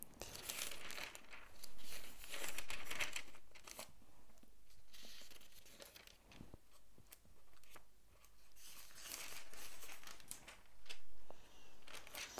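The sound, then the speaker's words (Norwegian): Thin Bible pages turn in a long series of soft rustles, crinkles and flips. The sound is quiet and irregular, swelling and fading without any voices. “Skal vi gå til Fjerde Mosebok. Bla med meg hvis du kan.”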